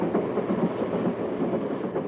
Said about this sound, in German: Der Zug rattert dem Abend entgegen, hält schließlich auf freier Strecke